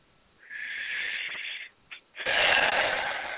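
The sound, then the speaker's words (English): A deep, spontaneous breath: a long, hissing inhale, a brief catch, then a louder, rushing exhale, airy and wheezy throughout with no talk. “That spontaneous kind of breath is the one that heals.”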